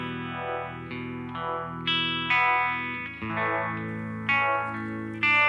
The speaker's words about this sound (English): signature Fender Strat through a Univibe pedal, which gives it this rotating, undulating quality.